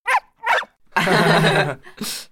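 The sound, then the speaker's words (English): A dog barks in a few short, sharp bursts around one longer, drawn-out vocal sound in the middle, loud and clear with no talk. “This is my dog, Jin.”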